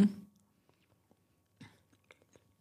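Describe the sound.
Soft chewing of a whole date coated in white chocolate, with a few faint, scattered crunchy bites and mouth sounds in a quiet clip.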